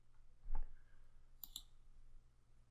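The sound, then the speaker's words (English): Computer mouse clicks as a URL is opened to sign in: a few short, sharp clicks spaced apart over a quiet background. “So I click this URL and I sign in.”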